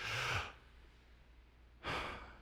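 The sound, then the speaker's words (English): A group of people draw in a very big breath together to fill their lungs. Two soft, breathy rushes of air are separated by a pause of more than a second. “let's all draw in a very big breath and fill our lungs.”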